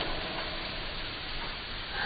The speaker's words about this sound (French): Il pleut fort, hein?